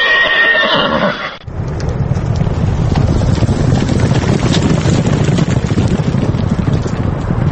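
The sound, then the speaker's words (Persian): A horse whinnies in a bright harmonic call lasting about a second at a horse race between native Tajik and English horses at the former hippodrome in Dushanbe. Loud, continuous rushing noise follows without a pause. “روز 23 مارت در نوروزگاه یا سابق ایپادرومی دوشنبه مسابقه اسب دوانی برگزار شد. در این مسابقه اسب‌های ذاتی تاجیکی و انگلیسی شرکت کردند.”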